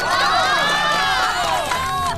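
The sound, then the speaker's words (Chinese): Wedding guests cheering and shouting as the groom is welcomed up to speak, a bright, lively crowd of voices with rising and falling calls, loud and steady throughout. “下面有请我们的新郎官讲两句，大家鼓掌欢迎。”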